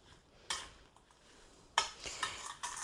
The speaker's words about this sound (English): And then we're going to mix it all up. So we're stirring this up.